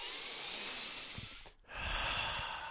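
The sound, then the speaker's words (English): A deep breath, heard as two long airy rushes of breath split by a brief pause midway, steady and fairly loud with no talk. “Can we all just take a deep breath?”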